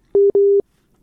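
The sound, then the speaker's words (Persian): A telephone busy signal after a call drops: two steady mid-pitched electronic beeps in quick succession, the second longer, then silence. “این باز قطع شد.”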